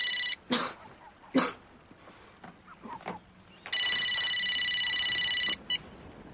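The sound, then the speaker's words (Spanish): A telephone rings in a luxurious apartment where a woman is asleep in bed. It gives a single steady electronic ring lasting about two seconds, after a few faint knocks and rustles. “el teléfono despierta a una mujer que duerme tumbada en una cama”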